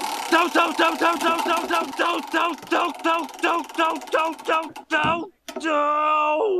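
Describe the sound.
A voice imitates a prize wheel spinning, with a long run of quick, evenly spaced clicky pulses, then a sudden break and a sustained held tone to finish.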